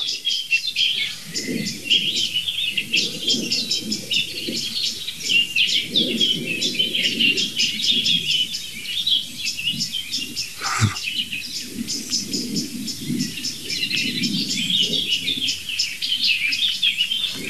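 Agitated thrush calls ring out from dense vegetation, many rapid high chirps and ticks repeating almost without pause, layered over lower softer chuckling notes throughout, with no talk.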